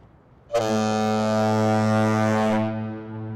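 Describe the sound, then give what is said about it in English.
A bridge foghorn sounds one long, deep, rich blast full of harmonics, starting abruptly, holding steady and loud for about two seconds, then trailing off. “There's something reassuring about being able to hear those horns where they're supposed to be.”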